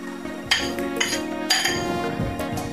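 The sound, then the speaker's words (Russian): Melted chocolate being stirred, a spoon clinking against the bowl a few times in a loose rhythm over a soft scraping background. “Шоколад хорошо перемешать.”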